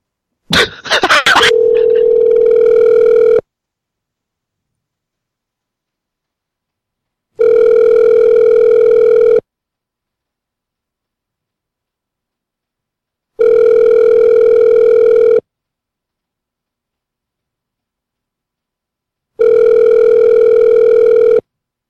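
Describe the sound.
Ringback tone of an outgoing phone call to an evening phone line: a steady mid-pitched electronic tone sounds four times, each lasting about two seconds with roughly four-second silences between, the first preceded by brief clicks and crackle.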